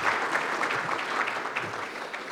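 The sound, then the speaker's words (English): Audience applause welcoming a congressional committee chairman onto the stage, dense, sustained clapping from many hands that stays loud and even throughout the short stretch, with no voices over it. “So with your warm applause, would you please welcome Chairman of the House Intelligence Committee, Chairman Rogers.”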